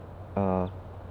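A female bird gives one short, tooting call. It is a brief harmonic note of about a third of a second that stands alone over a low, steady background hum.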